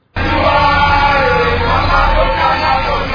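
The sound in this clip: Sixty-nine detainees chant farewell as a large vehicle carries them out of the yard of Bunia central prison toward Gety. Loud massed voices begin abruptly and carry on continuously.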